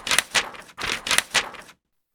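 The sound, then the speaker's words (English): A paper ballot being folded: several crisp, dry paper rustles and creases in two short groups, fairly quiet and alone, ending in silence. “Now, write your candidate's name on a paper. Fold the paper.”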